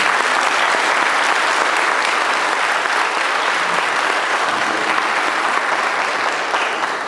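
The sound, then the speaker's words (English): Audience applause welcomes a worship leader to a church platform: loud, dense clapping holds steady for about seven seconds with no letup. “But I want you to put your hands together and welcome Seth to our platform.”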